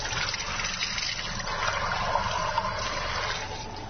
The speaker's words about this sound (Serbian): Za početak skuvat ćemo kafu. Sipat ćemo vodu u džezvu.